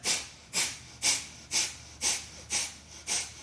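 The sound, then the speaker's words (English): Sharp, forceful nasal breaths of bellows breathing during a guided breathing exercise: seven evenly spaced hissing bursts, about two per second, each rising quickly and fading, with no talk. “you can do your bellows breathing here. So a pull, a sharp inhalation or a sharp exhalation through the nostrils and kind of an automatic inhale.”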